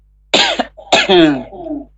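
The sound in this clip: Two harsh coughs from one person: a short first burst, then after a brief pause a longer second cough that trails off into a voiced, throaty rasp.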